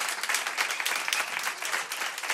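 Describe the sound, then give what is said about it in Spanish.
Studio audience applause for departing guests at the end of a show: a dense, steady wash of many hands clapping at even loudness throughout, with no talking over it. “Un aplauso para ellos.”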